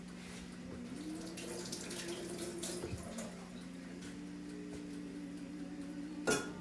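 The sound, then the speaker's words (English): Hands being washed under a running tap in a home kitchen: a steady, soft stream of flowing water with faint splashing, ending in one brief, louder splash near the end. “There we go. Wash my hands.”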